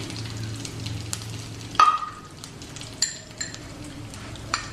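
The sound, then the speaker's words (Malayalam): Chopped garlic, about a spoonful, sizzles as it drops into a hot pan that already holds curry leaves. A sudden loud hiss rises over the steady frying, then settles, with a few light clinks of a utensil after it. “അതിലോട്ട് 1 spoon വെളുത്തുള്ളി അരിഞ്ഞത് ഇട്ട് കൊടുക്കാം.”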